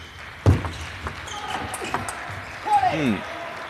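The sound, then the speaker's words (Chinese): Table tennis ball being served and struck during a match: a sharp click stands out, followed by a few fainter taps spaced at uneven intervals. “重发，6-5。 于和一发球”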